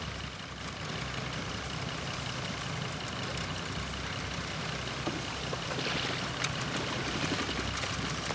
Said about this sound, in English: Sometime later, the motorboat sets off back down the river.